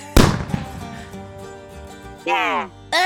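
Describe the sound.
A gunshot fires in a video game: one sharp, loud crack with a quickly decaying tail, followed by quieter game sounds and brief voice-like bursts.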